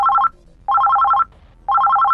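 A telephone rings with an incoming call in repeating bursts of loud, fast electronic trilling, with short pauses between bursts.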